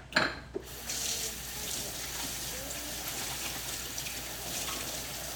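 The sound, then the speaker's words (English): Water runs from a tap into a sink while hands are washed. A brief knock at the start gives way to a steady, even rush of flowing water that continues throughout. “So let me just wash my hands really quick.”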